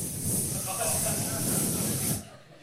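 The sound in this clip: A voice imitates air hissing out of a leaking air mattress: one loud, steady, breathy hiss that lasts about two seconds and then cuts off.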